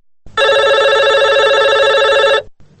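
A telephone rings for an incoming listener call: one loud, sustained electronic ring lasting about two seconds, with a bright, buzzing tone, then a brief soft click as it stops.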